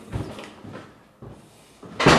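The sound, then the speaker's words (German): Door handling as people step through a door into a building that houses an herb room at the edge of an herb garden: a few soft knocks and shuffles, then a louder, brighter scrape or bang at the end. “Es geht hier durch die Türe.”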